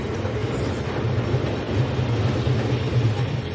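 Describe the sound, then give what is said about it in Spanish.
A train departs, producing a steady, fairly loud low rumble and hum that continues without a break from start to finish, with no voices. “El tren se va.”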